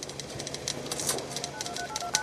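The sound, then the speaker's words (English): Synthesized clatter of old typewriters, teletype machines and rotary phones from a sound-art installation in a lobby: dense, rapid clicks and taps with a few brief tones, steady and moderately loud throughout. “what you hear are synthesized sounds of ancient typewriters, teletype machines, rotary phones.”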